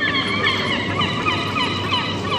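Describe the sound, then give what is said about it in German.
Seagulls calling at the coast, with overlapping, wavering cries that run throughout over a steady, rushing background noise. “Die Möwen. Die Möwen sind musikalisch. Die Möwen geben. Aber Möwen erzeugen überall auf der Welt Musik.”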